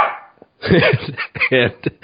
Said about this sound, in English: Who let the dogs in?